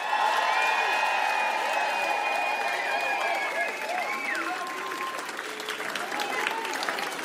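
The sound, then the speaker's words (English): Crowd cheering and applauding for a DJ at a concert: a dense, steady wash of clapping with whoops, whistles and shouts that stays loud throughout, easing slightly near the end before swelling again. “Everybody, can you all make some fucking noise for DJ Nejo?”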